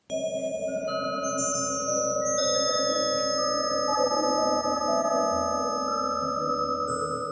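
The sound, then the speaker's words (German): Computer-modelled vibrations of spider web threads, laser-scanned and turned into sound, form a dense cluster of sustained, shimmering tones at many pitches. New tones keep entering at an even loudness. “Also sie haben ein Spinnennetz mit einem Laser gescannt und am Computer dann nachgebaut, wie das klingt, diese Schwingungen der Fäden.”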